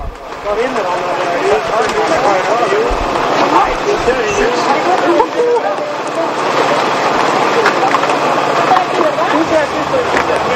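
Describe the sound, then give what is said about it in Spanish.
Racing cyclists shout inside a bar or hotel where they have taken shelter from the cold during a race. The overlapping voices form a loud, dense babble that continues without a break. “Son los corredores dando voces”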